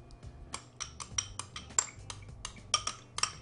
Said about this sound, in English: So I'm going to take some ricotta cheese and add it to my bowl and mix in some more B12 rich eggs.